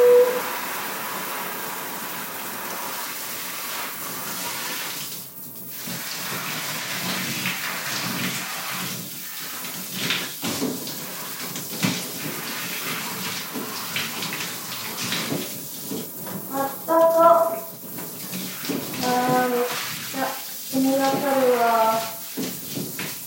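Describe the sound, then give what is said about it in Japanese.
Shower water runs steadily while someone rinses off, a continuous broad hiss with soft splashing fluctuations, and a voice speaks intermittently over it. “じゃあ軽くシャワーで流してきます。”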